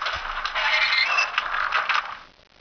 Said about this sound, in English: Cycle Door Open and Close.